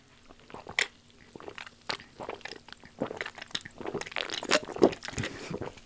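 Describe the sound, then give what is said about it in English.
Biting and chewing on strawberry-vanilla-chocolate and guava-dragon-fruit treats, with many soft, wet crunches and squishes in an irregular run that grows denser and louder toward the end. “So you want to try the vanilla, the strawberry vanilla chocolate? Yeah, let's try it. I will try guava dragon fruit.”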